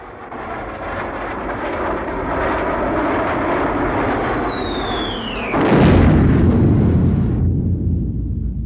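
A German Junkers bomber attacks a train. Over a constant roaring aircraft drone, a whistle falls steadily in pitch, then a single heavy explosion bursts out and rumbles on loudly, with no talking.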